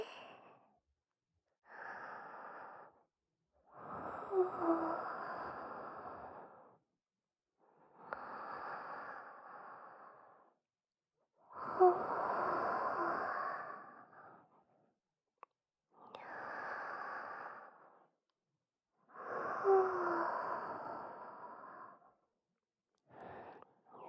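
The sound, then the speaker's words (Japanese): Slow, deep breathing: a series of soft, drawn-out inhales and exhales with short pauses between them, close and quiet, with no talk. “ほら、一緒に深呼吸して。”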